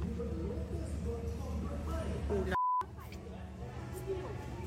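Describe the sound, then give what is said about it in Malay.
A single short, steady high beep from a barcode scanner at a price check station cuts in over background talk and store noise. “Cara yang kedua, dekat Semangat Asas Rahmah ni ada check item barcode ni. Scan barcode.”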